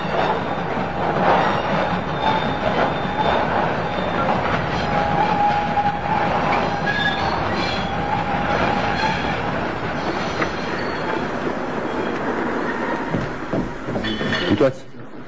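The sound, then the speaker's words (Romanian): A train pulls into a station: a loud, steady rolling rumble of wagons with thin, high wheel squeals running through it, then a sudden drop in level near the end. “Asta trebuie să fie trenul.”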